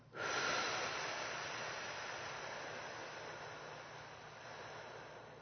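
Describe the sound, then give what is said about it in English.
A deep, drawn-out exhale starts abruptly and trails off slowly over several seconds as a steady breathy hiss, heard alone. “Breathe it out.”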